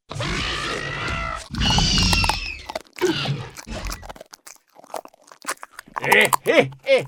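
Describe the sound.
Cartoon sound effects of raptors eating: loud snarling, grunting crunches at first, then scattered smaller bites, chomps and squeals in an uneven rhythm.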